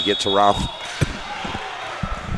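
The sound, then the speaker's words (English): Several sharp thuds of a basketball dribbled on a court during a game come in an uneven rhythm over steady background noise, with a voice heard briefly at the start. “He gets around Thomason on the dribble and loses the ball out of bounds.”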